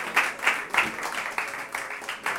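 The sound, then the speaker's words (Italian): Audience applause at a live show: faint, thin clapping with sharp claps recurring in a loose rhythm about three times per second, a modest rather than sustained ovation, with some voices faintly underneath. “Non era proprio un grandissimo applauso, era un applauso quasi da fine spettacolo, dovete fare uno più sostenuto”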